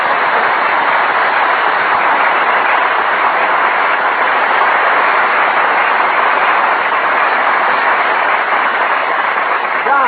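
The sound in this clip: A passenger train with compartments runs on its rails, a steady, loud, muffled rushing rumble that holds an even level for about ten seconds with no breaks or distinct clicks.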